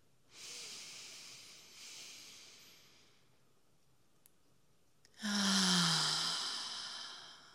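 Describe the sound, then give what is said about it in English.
Guided breathing exercise with two long, airy breaths, the second one louder and more forceful. The breathy rushes stand alone, with quiet pauses around them. “let's start with an exhale and breathe in. And let it go on the exhale.”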